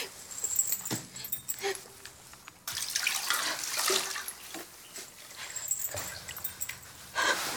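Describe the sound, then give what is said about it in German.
Water splashes and sloshes as a woman is washed, in irregular bursts of bright, noisy splashing that rise and fall, moderately loud, with no talk. “Stumm fährt sie fort, Marie zu waschen.”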